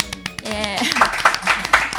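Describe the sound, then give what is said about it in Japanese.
Quick rhythmic hand clapping at a steady beat, many claps in a row, following a short stretch of a person talking. “謎拍手”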